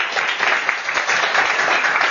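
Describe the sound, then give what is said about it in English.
Audience applause welcoming a speaker at a talk, a dense, steady patter of many hands clapping at even loudness throughout. “So would you all please put your hands together and welcome Harry.”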